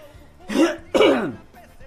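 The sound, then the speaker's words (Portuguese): Throat clearing from someone with phlegm stuck in the throat: two rough, guttural bursts close together, the second slightly louder, followed by quiet. “Eita, que eu tô com pigarro na goela, tá ruim pra caramba.”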